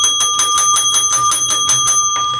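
A bell rings in rapid, evenly spaced strokes, many of them in quick succession. Each bright, clear strike rings under a sustained metallic tone, loud and alone, before the ringing stops.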